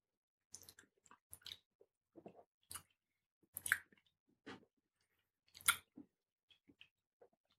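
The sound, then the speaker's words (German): Ardbeg Ten whisky is sipped and tasted, heard as very faint, sparse mouth sounds: soft slurps, smacks and wet clicks scattered across otherwise quiet moments. “Ah, sehr schön. Probieren wir hier einen Schluck.”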